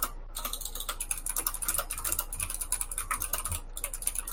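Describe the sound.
Rapid typing on a computer keyboard: many quick, crisp key clicks in a steady, uneven patter that runs without pause for the whole stretch, with no voices.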